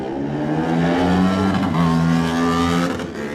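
A racing motorcycle engine, a road-race bike leaving the start line, screams at full throttle, holding a loud, sustained high-revving note with a brief dip partway through.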